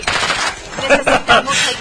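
Gunfire in a film scene, with shots fired from a car, comes as dense, rapid bursts of sharp cracks. A few louder volleys punch out near the end.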